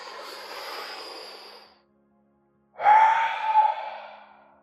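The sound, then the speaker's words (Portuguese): A deep full-lung inhale and then a complete exhale in a breathing-exercise demonstration: a soft, airy intake, a brief silence, then a louder, forceful breath out with a faint voiced edge that tapers away. “No penúltimo ciclo, vou-te pedir que inspires bem profundo, total capacidade dos pulmões, e a expires totalmente, algo como...”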